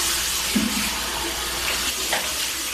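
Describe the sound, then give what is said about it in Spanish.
Water runs from a tap into a sink while a man washes his face and hair, a steady rushing flow with a few faint splashes. “las imágenes muestran al narcotraficante lavando su rostro y su cabello en un lavabo”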